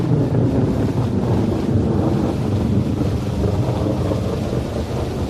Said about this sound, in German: Und während die kleine Ameise so sang, begann es fürchterlich zu regnen.